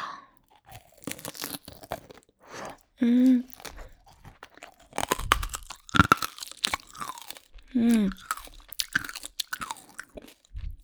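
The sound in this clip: Crisp crunching bites into candied hawthorn skewers with a hard sugar coating. Bursts of crackling and chewing come in irregular clusters, with some brief vocal sounds in between.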